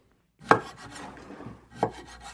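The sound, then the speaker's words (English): A knife slicing a mango into small pieces on a kitchen counter: two sharp knocks of the blade striking through, with soft scraping cutting sounds between them. “He's at the kitchen counter, slicing a mango into toddler-sized pieces.”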